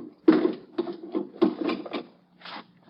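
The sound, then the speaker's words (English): Bolts are slid open on a wooden crate packed with straw and holding nitroglycerin, giving several short rough scraping strokes of uneven length with brief pauses between them, moderately loud and without speech. “Just let me slip these bolts.”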